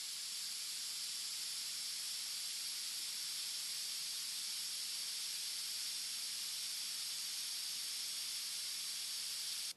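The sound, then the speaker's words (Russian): Steady, loud static hiss pours from a military radio's speakers, a dense, unbroken wash of noise that holds for nearly ten seconds and then cuts off abruptly at the end. “Затем динамики разразились треском и шипением, и полный подозрений голос уточнил.”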